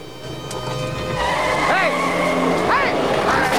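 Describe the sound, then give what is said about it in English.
A car's engine drones as the vehicle reverses back across a road, the steady hum growing louder, with a couple of brief, high squealing chirps partway through. “He reverses the car back across the road.”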